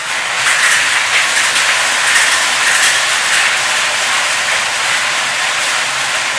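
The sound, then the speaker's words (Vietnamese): Six lottery ball cages spin together for a special prize draw, giving a steady, dense whirring rattle that sounds like loud hiss and holds even from start to finish with no voices. “Giải này được quay 6 lồng cầu và quay 1 lần. Mời 6 em quay số.”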